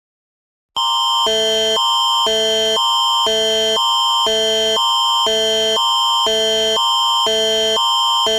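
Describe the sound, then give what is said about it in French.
The Canadian emergency alert attention signal for an RCMP police alert in Belmont, Nova Scotia sounds loud and harsh after a moment of silence, alternating tones in a steady repeating cycle for about eight seconds. “Alerte de la GRC, activité policière en cours Belmont Road à Belmont, Nouvelle-Écosse, arrêté une personne dangereuse soupçonnée d'être armée. Résidents locaux, restez à l'abri.”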